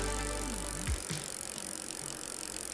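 A punishment wheel spins with a rapid, steady ticking rattle like a freewheeling bicycle hub. The clicking runs evenly through the whole clip and is heard alone, without voices.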